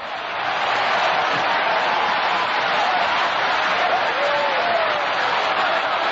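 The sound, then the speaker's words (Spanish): A church audience keeps applauding during a worship service, the clapping swelling in over the first half second into a thick, unbroken roar with faint voices mixed in. “Sigue aplaudiendo.”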